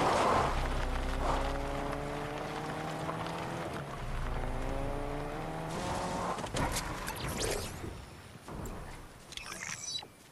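Engine drone of an off-road truck driven in the video game Fortnite: steady layered harmonics that shift in pitch, with a tire-squeal texture and a few rougher bursts toward the end.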